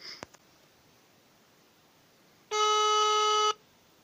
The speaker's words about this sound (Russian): сейчас я им набираю, пытаюсь дозваниваться